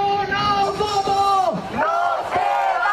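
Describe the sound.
Protesters at Saturday demonstrations over housing in 50 Spanish cities chant in unison. The mass of voices is loud and steady, with rising and falling shouted syllables.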